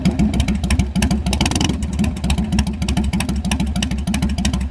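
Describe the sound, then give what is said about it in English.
Evo motorcycle engine idling through pipes that give it a hollow, almost gurgly tone: a loud, steady run of low, rhythmic thumping pulses with no talk. “There's your Evo. That is, yeah. Yeah, you those pipes make it sound a little bit hollow.”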